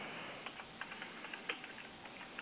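Typing on a computer keyboard, many faint, irregular key taps clicking in quick succession against a quiet background.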